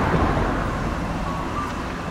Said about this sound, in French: Il y a un camion de chantier.